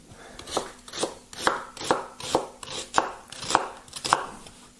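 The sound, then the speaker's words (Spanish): A knife chops steadily through two new sweet onions, one loud, crisp cut roughly every half second, the beat keeping an even rhythm with nothing else heard. “Vamos a picarlo aquí así. Tampoco hay que picarlo. Son dos cebollas, ¿eh? Son cebollas nuevas.”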